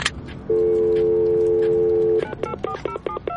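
A telephone call being placed: a steady, loud dial tone holds for under two seconds, then gives way to a quick run of short, bright keypad dialing beeps.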